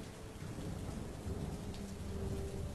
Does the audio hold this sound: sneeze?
no

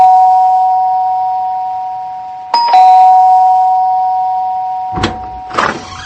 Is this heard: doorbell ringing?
yes

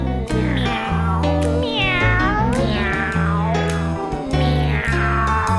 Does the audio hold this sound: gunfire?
no

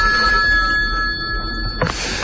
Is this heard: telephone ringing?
yes

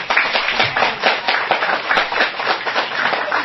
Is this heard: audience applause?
yes

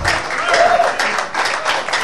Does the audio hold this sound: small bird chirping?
no

